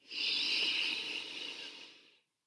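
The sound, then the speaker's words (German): A deep breath is drawn in through the nose during a calming EFT session, a steady airy hiss that swells quickly, holds for about two seconds, then tapers off into silence. “Nimm einen tiefen Atemzug durch die Nase ein”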